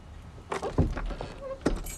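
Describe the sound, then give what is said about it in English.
An iron outer door opening and a wooden door behind it being unlocked: a few sharp metallic clanks and clicks with a rattling jangle, moderately loud, scattered across the moment. “Elizabeth opens an iron outer door and unlocks a wooden door behind it.”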